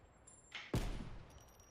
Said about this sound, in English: Yeah, there's a guy up there shooting through the damn wall.